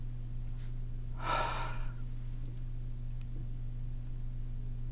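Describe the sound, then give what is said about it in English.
A single breath during a breathing exercise comes as a soft, airy rush lasting under a second over a steady low hum, with quiet stretches before and after. “Inhale through your nose. Exhale out your mouth.”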